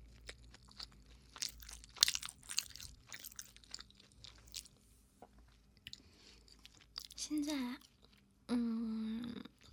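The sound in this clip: Someone chews food during a meal, with many soft, crunchy bites and mouth clicks, faint and irregular, followed by short vocal sounds near the end.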